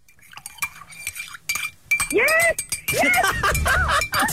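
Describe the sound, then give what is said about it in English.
A spoon stirs a coffee cup, ringing in a few bright metallic clinks against the cup, then loud excited voices and shrieks break in over the clinking. “I can't stand the sound of someone stirring a coffee cup. like this.”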